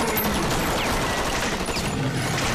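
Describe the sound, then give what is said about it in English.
Soldiers fire guns at a giant snake, a dense, unbroken barrage of rapid automatic gunfire that stays loud throughout. “The soldiers open fire on the giant snake, but it grabs one of them in its jaws and bites his arm off.”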